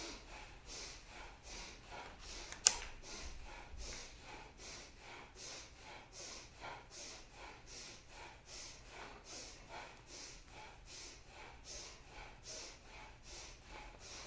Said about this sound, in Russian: Поехали в бхастрику дышим.